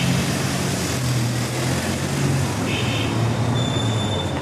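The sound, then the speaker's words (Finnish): Dense, continuous traffic noise from a busy street crowded with cars, electric bikes and electric mopeds, where horns are used freely; a steady roar at even loudness with no clear pauses and no voices. “vaikka sähköpyöriä ja sähkömopoja on tosi paljon, niin autoja on vielä enemmän ja äänimerkkiä ei säästellä. Mutta mennään katsomaan tämän melusan liikenteen keskeltä, niin tässä on Liinon sähköpyöräliike.”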